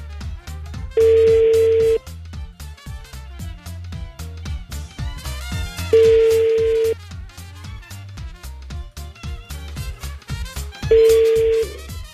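A telephone call rings through unanswered toward voicemail: three long, even ringback tones at one steady pitch, evenly spaced, over rhythmic background music.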